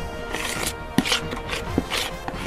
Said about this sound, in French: Je coupe les fraises pour les mettre dans dans les muffins, au cœur des muffins.